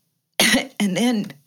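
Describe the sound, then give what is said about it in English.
Two loud, harsh coughs from one person, the second longer and more throaty, break out after a moment of silence. “I'm coughing. Excuse me.”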